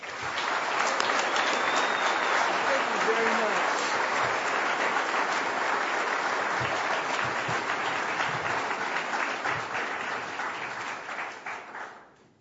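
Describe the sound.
A large audience applauds to welcome University of California president Janet Napolitano at a Commonwealth Club evening event. Dense, sustained clapping holds steady for many seconds, then thins and fades out near the end.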